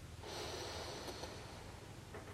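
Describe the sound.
A deep inhale during a guided breathing exercise: a faint, airy rush of breath lasting about two seconds, with no talking.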